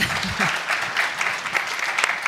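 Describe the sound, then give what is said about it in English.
Applause from an audience at a conference talk: brisk, uneven clapping with rippling bursts and small swells, moderately loud and continuing across the whole stretch. “I don't think that deserves an applause”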